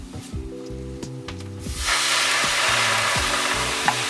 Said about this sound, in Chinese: 就可以来做一下拌炒，炒起来。好，炒了之后呢，我们就给它加水。